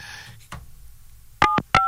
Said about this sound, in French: On va appeler ici le numéro de téléphone.